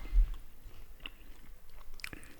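Someone chews an edible wax moth larva, producing faint, wet crunching and squishing bites in an irregular series of small clicks and soft mashing sounds, alone and close.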